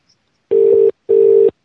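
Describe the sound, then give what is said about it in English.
A UK telephone ringing tone: two steady, low-pitched electronic bursts of about equal length separated by a short gap, heard alone with no talk. “It's the only problem with these UK numbers. Too much ringing. Beep, beep.”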